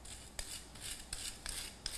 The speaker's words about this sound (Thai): ก็จะกดๆหน่อยนะครับก็จะใช้ช้อนกดลงไปหน่อยครับ